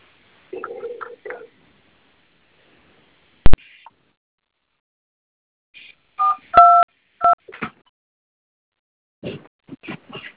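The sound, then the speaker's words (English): Telephone keypad tones as someone enters an account number on a customer service line: a few short, spaced electronic beeps, with scattered soft clicks and rustles between them. “please enter your debit card, account number, ID, followed by the pound key”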